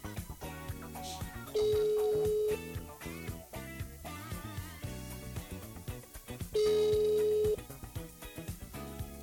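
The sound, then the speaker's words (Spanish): A telephone rings twice, each ring a steady electronic tone lasting about a second, faint overall and set against a busy background of other sound. “Como ven, ya está sonando el teléfono.”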